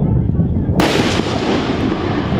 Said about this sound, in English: M109A2 howitzers fire from a 155-millimeter barrel from afar. A CM-11 Brave Fire tank fires from a 105-millimeter tank gun.